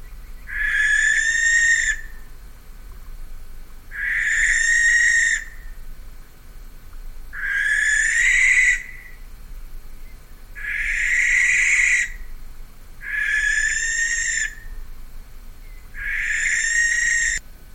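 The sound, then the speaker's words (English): Barn owl cries: six long, harsh, hissing screeches, each about a second and a half, repeating at an even pace with brief quiet gaps, loud and alone. “That was the cry of a barn owl.”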